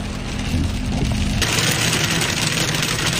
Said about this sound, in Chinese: 考察组的车辆在冰雹中艰难前行